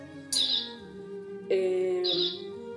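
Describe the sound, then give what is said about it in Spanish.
Cuckoo clock sounding with bird-like calls: two faint tonal calls, each a bright note followed by a lower one, over a steady low background hum. “¿Qué es el ruido? Es un pajarito, siempre me pasa lo mismo. El reloj. Ah, creo que sí, como un cucú.”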